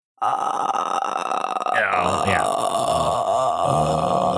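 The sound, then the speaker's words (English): Someone strains to burp, producing a sustained, low, guttural croak with a rough, gravelly texture that holds loud and steady for several seconds without a clear release. “sounds like you're burping. I was gonna say it's just like pre-burp. It is, yeah pre-burp. Just like trying to burp.”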